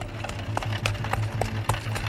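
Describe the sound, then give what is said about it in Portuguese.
Horse hooves clop in a steady, even rhythm on the ground as a horse-drawn cart rolls over dusty ground, the sharp hoof taps sitting above a low, continuous rumble. “Cascos de cavalo batiam contra o chão. As rodas de uma carroça levantavam poeira.”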